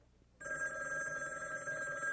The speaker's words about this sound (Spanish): voy a atender el teléfono. ¿Aló?